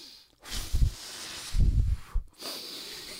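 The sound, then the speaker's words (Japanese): A person takes deep, noisy breaths during a comedy game, with three rough bursts of airflow in quick succession, moderately loud and separated by brief silences. “いやいや一回でやろ一回で 深呼吸なんぼすんねん”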